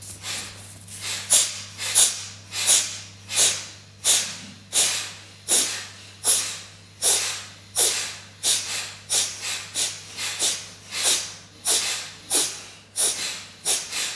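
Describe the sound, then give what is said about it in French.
Sharp, forceful breath exhales pushed from the lower belly in a breathing exercise, many short hissing bursts in a steady, even rhythm over a faint low hum. “Expire précise, bien nette, avec le bas du ventre.”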